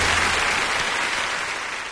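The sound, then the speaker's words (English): Audience applause on a live song recording, a steady wash of clapping hands that gradually fades toward the end. “These songs Pastor Beatty put into the queue, and he likes a lot of live renditions. So every Thursday we get some applause.”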